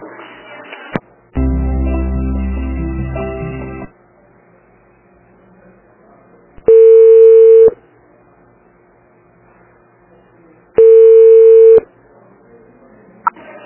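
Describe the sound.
Telephone tones while placing a call: a steady buzzing dial tone, then two long, loud ringback tones separated by silence. No one talks.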